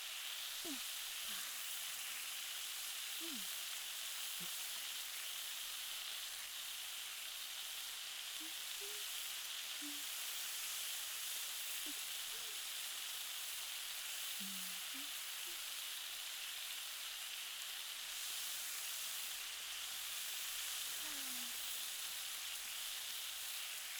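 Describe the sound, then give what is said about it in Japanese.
Food is frying on an iron griddle after its other side has been turned and oil added. A steady, faint sizzling hiss runs the whole time, dotted with occasional tiny pops. “じゃあ油を少し足して反対面もしっかり焼きましょう。”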